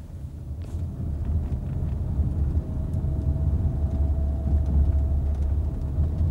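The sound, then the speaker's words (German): A car engine rumbles as the car drives slowly toward a house in the rain: a steady, loud, low drone with a rough, windy hiss over it and no clear separate events. “Ich steuerte meinen Schlitten langsam auf Steiners Haus zu.”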